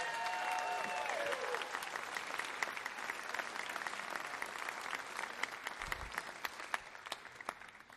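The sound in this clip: Audience applause after a live music performance: dense, steady clapping fills all eight seconds at an even level, with the last ringing tones of the music fading out at the start.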